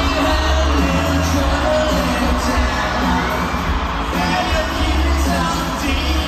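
Crowd noise from an audience-made recording of a live concert: a steady, dense blend of cheering, shouting and whoops that stays loud throughout.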